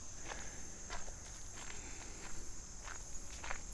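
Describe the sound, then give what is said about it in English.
Footsteps of someone walking outdoors toward a wildlife blind. Soft, irregularly spaced steps, fairly faint, sound over a steady high-pitched hum. “So now we're going to head down into the big blind. Walking past the big vestigial wall that makes no sense.”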